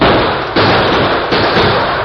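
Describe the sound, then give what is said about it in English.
Gunshots in a radio drama chase on horseback: a few sharp, heavy bangs break through a dense, loud wash of rumbling noise. “That last shot hit home.”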